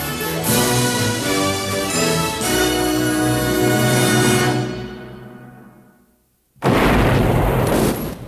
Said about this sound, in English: Daytime, a dusty explosion blossoms from a rock face, sending debris into a ravine by a prison quarry.